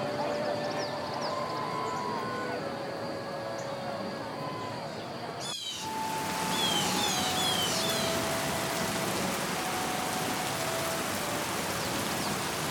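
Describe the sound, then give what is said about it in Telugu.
Heavy rain during a week-long downpour at harvest time in a village, a steady dense hiss that runs unbroken throughout at an even, moderate level. “ఉన్నట్టుండి పెద్ద వాన ఆకాశానికి చిల్లు పడిందా అన్నట్టు వారం రోజులు ఎడతెరిపి లేకుండా కురుస్తున్నది”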